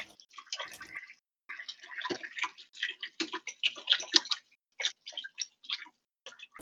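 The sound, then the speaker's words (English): Hands being washed under a running tap, heard as faint, irregular bursts of splashing and rubbing with a brief quiet gap early on. “Sorry for the sounds of hand washing in the background.”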